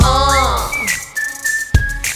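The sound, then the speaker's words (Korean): Human whistling in a live pop song performance: a sustained, high whistled tone held steadily with small dips, following a rising glide, over low beats and a sharp percussive hit. “점점 가까이 들리잖아. 휘파람”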